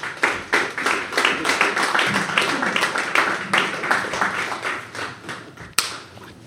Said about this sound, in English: This was a great high five. It was a good high five. It's really terrible when you miss a high five. Oh, we nailed it, though.